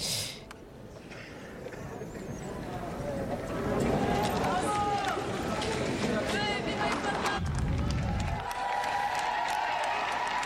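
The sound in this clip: A crowd of young people cheers and applauds the Pope as he greets them, a dense, sustained roar of voices and clapping that stays loud and steady throughout.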